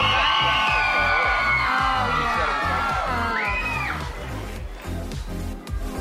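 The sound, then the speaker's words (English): Audience cheering and whooping at a dog competition: a loud crowd with many shouting, yelling voices that stay dense throughout, easing slightly toward the end. “Pabst may have the edge, but these cheers are only one element leading to the judges' final decision.”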